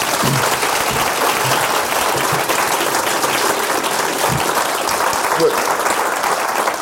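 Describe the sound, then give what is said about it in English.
Audience applause welcoming a speaker, a dense steady clapping from a crowd that holds loud and even for the full stretch, with no voices rising above it. “simply to put your hands together and welcome John Swinney.”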